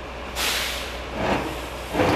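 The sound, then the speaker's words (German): Air-brake hiss and engine noise as a military tractor unit and a Dingo armored vehicle are driven into a machine hall; three surges of broad hiss rise over a steady low rumble. “Wir sehen gerade, wie zwei Fahrzeuge in die Halle gefahren werden. Wir haben hier einmal rechts den SLT, die Zugmaschine, und links haben wir nochmal einen Dingo. Die werden jetzt auf die Arbeitsplätze gefahren.”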